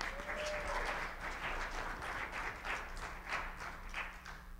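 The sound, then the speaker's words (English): Audience applause during a talk on the end times: dense, sustained hand clapping that keeps a fairly even loudness from start to finish. “Give him a hand clap when you do that.”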